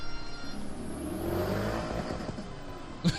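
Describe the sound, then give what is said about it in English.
A V8 muscle car engine revs in a faint, steady drone that swells slightly in the middle. A short thump sounds near the end. “That sounds like a Mustang engine. That sounds like a Hellcat engine.”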